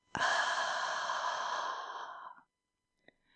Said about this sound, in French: c'est le temps de prendre une bonne inspiration et de se détendre à l'expire.